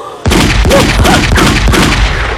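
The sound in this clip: Rapid gunfire from a shooting on a railway bridge, where a man taking aim is shot in the back: a loud, dense series of sharp bangs fired in quick succession, with no talking.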